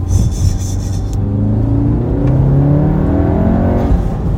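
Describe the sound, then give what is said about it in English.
A turbocharged car's blow-off valve vents with a brief airy hiss at the start, then the engine pulls hard with a loud, steadily rising drone, no talk over it. “I love that blow off sound. It's nice. I would actually prefer it if it was stock, but. I love that sound.”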